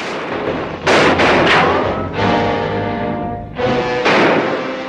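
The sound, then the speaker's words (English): Gunshots crack during a chaotic outdoor gunfight, one round ricocheting off a rock. A few loud, sharp blasts come in quick succession, each trailing off into a long ringing tail. “drawing a shot from Barlow, which ricochets off a rock in front of him”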